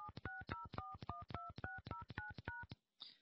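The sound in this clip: Telephone keypad tones sound as a PIN is entered into an automated mobile-carrier phone menu. A quick, irregular run of many short two-tone beeps is followed by a brief silence and a short burst of noise.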